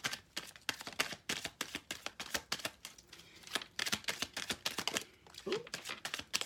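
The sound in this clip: Tarot cards being shuffled with some falling out: many quick, crisp flicks and taps in an uneven run, faint and close together.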